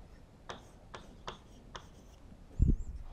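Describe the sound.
Chalk or a pen scratches on a board in four short, evenly spaced strokes, followed by a louder low knock near the end.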